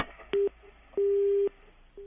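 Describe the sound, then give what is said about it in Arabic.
Telephone busy tone after a call line disconnects: mid-pitched beeps of uneven length, a short one and then a longer half-second one, with another starting at the end, over faint telephone-line hiss. “انقطع الخط، انفصل الخط.”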